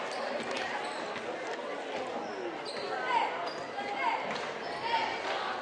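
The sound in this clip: A basketball is dribbled on the court during a girls' high school game, with many quick, hard bounces under a commentator's ongoing talk.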